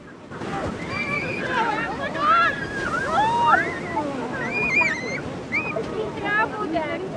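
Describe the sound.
Waves washing onto a beach where children play, making a steady rushing surf noise with wind, while high children's voices call out over it.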